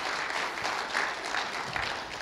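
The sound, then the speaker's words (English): Applause from a crowd, a dense, even patter of many hands clapping that stays steady and continuous throughout. “Yeah, that's worthy of some applause.”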